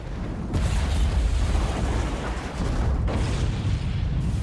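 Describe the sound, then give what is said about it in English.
A large explosion erupting in flames in a film scene: a loud, continuous, low rumbling roar that fills the whole clip, with no separate bursts. “As the chopper flies away, Skynet explodes in flames and a white rock.”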